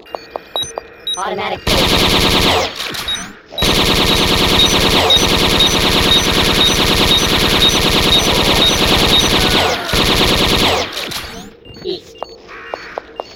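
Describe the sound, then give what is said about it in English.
An automatic bolt gun fires in a video game: long, relentless bursts of rapid rattling shots, broken by brief pauses, with a few isolated shots before and after. “Semi-automatic bolt gun. Automatic bolt gun.”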